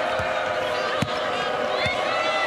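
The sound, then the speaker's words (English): A few dull thuds of a basketball dribbled on the court during a women's college game, set against a steady wash of crowd noise. “Dribbles between her legs.”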